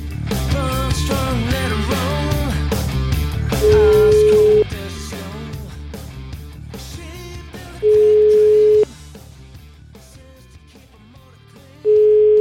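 Ringback tone while an outgoing telephone call connects: three steady, mid-pitched tones of about one second each, evenly spaced several seconds apart, sounding over music that plays throughout.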